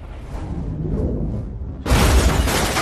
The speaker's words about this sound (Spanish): La flecha explota, lanzando el auto por los aires en una enorme explosión.